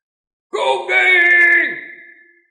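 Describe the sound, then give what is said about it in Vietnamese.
A giant, swelling creature lets out a thunderous roar in a fantasy tale: one long, loud, bellowing cry that starts abruptly, holds for about a second, then fades out. “Hoàng Tiên Đại Điệu phát ra tiếng gầm kinh trời.”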